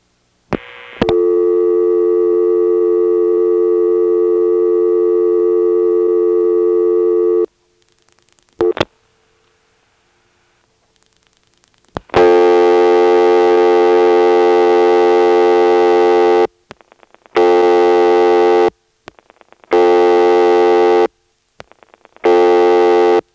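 A telephone tone sounds after 80 is dialled on a dial speed test line: a long steady tone, a short gap, another long tone, then a few repeated interrupted beeps, loud and alone.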